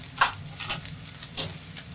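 Bacon and onions simmering in a pan after water is added give a soft, steady sizzle broken by a few sharp crackles and pops, with no voices.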